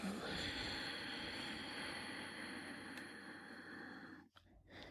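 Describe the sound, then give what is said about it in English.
A slow exhale through the nose with the back of the throat constricted, part of a Conquer Breath breathing exercise, makes a soft, steady breathy hiss for about four seconds before trailing off into a brief quiet pause. “Inhale through the nose, contracting the back of the throat. And slowly let it out through your nose.”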